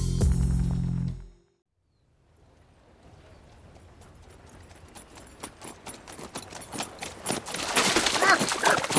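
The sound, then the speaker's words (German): Horse-drawn carriage of the royal huntsman: after a brief loud sound cuts off into a pause, rhythmic clip-clop hoofbeats rise out of silence and grow steadily louder and brighter, a fast, even trot over a rumbling underlay. “Das war die Kutsche des königlichen Jägers.”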